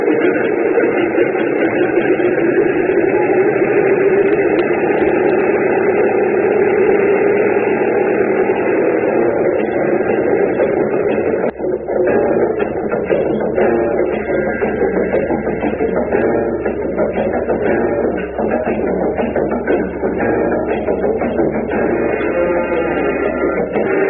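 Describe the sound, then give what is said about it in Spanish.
A small airplane's engine drones at a steady, continuous, loud level for the whole stretch, with a slight change in tone partway through. “a bordo de este pequeño avión en el que iniciamos el viaje”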